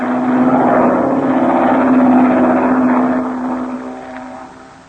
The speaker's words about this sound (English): It's a plane, Chuck. There it is. A black one. Flying directly this way.